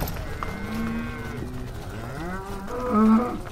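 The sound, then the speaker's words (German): Black-and-white dairy cows in a herd moo on a green spring pasture after being let out of the barn. Drawn-out, wavering calls overlap above steady background noise, and one louder moo rises near the end. “Bocksprünge der Milchkühe auf grüner Frühlingsweide, Kopfstöße nach Rinderart.”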